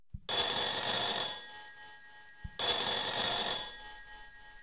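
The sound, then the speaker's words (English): A Skype call rings like an old-fashioned telephone bell: two bright, rattling rings of about a second and a half each, separated by a short pause, each starting with a faint click. “that rings like an old-fashioned phone”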